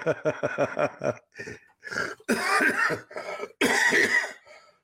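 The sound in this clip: A fit of coughing: a quick run of short, hacking coughs, followed by two longer, harsher bursts that rasp in the throat. The coughs are loud and stand alone, with no talk over them.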